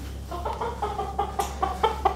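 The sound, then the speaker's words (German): A brown-feathered hen clucks inside a transport box: a series of short, nasal clucks at an uneven pace, growing a little louder toward the end, over a steady low hum. “Sie ist ein braun gefiedertes Huhn”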